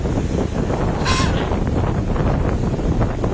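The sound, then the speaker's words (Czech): Windstorm on Crete in wet, overcast weather: a steady, loud, rushing roar of wind buffeting the microphone throughout, with one brief, sharper gust burst near the start. “Totální fujavice, totální fujavice.”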